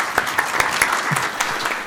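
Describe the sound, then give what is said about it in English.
A short round of applause from an audience at a panel event, many hands clapping in a busy, uneven patter at moderate loudness. “just a quick round of applause for Simonas”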